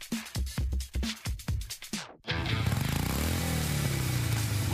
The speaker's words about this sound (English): rumble all summer long in one of four brand new Harley Davidson motorcycles